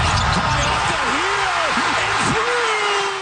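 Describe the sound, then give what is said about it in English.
A basketball bounces high off the rim before dropping in during overtime of a Raptors playoff game 6 in the final seconds. The bounces come over loud, steady arena noise and excited commentary. “Mississauga's RJ Barrett's ball bouncing off the rim as high as the shot clock before dropping in, saving the Raptors from elimination.”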